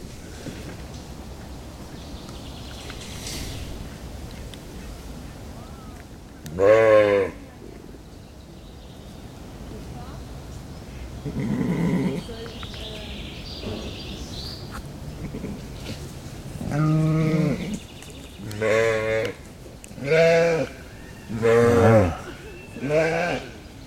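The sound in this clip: Goats bleat at feeding time, among them a mother goat with kids. A lone bleat comes early, then a quick run of several loud, wavering bleats near the end, with quieter rustling sounds in between.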